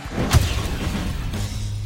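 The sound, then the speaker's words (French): A radio jingle for the Africa Radio football show opens with a sharp swooshing sweep and a deep boom, then gives way to a sustained low rumble and hum. “on va peut-être passer un petit jingle justement pour passer et pour aller voyager du côté de l'Europe pour tous nos auditeurs et toutes nos auditrices.”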